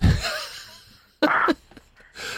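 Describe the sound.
Heavy panting from a man running on a treadmill at home, heard over a phone call: a few loud, breathy bursts of hard breathing separated by short pauses, with no talk over them.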